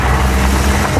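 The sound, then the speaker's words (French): The cars of grape pickers arrive at night and park beside a wine estate, making a steady low engine rumble with broad, washing road noise at a constant level. “Mais le bruit que vous entendez, c'est toutes les voitures qui arrivent là, tous les vendangeurs, et qui vont se garer juste à côté du domaine.”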